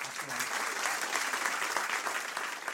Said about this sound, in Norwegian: og en stor applaus til Einar Duenger Bøhn.